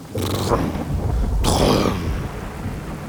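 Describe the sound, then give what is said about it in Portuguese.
Thunder rolls through a rainstorm as a loud, steady rumble, with a couple of brighter cracking surges near the start and middle that fade back into the low roar. “Ouviu-se o som do trovão.”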